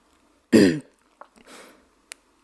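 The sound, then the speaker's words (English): A man clears his throat: one loud, rough rasp, then a few fainter, shorter throaty noises and small clicks. “He clears his throat a few times before he speaks.”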